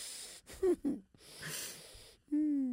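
A dog struggling to breathe during a sudden seizure gives strained, wheezing gasps. Short rasping bursts are followed by a longer, higher whistling wheeze at the end.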